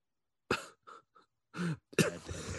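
A person coughs after choking on something: several sharp, irregular coughs separated by short silences, the final ones rougher and more forceful.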